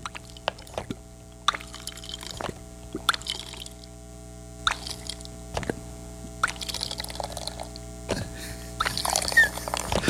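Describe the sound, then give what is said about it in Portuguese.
Water is poured into a gourd to serve yerba mate in several short, separate splashy pours, quiet against a faint steady hum. “Hoje é domingo. Eu tô aqui atrás, eu quero servir um mate para os ouvintes. Vamos ver se vai dar certo.”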